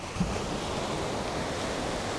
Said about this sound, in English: And the white water crashing in. They sound bigger than they are,